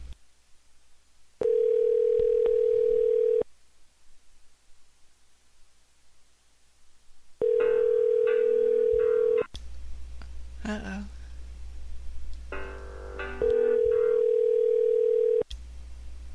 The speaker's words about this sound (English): Numbers were pressed. Eight. Right. Picked up phone line. Let's call back.